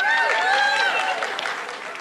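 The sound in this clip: A live show audience applauds in a brief burst of clapping with some voices mixed in, fading slightly over about two seconds.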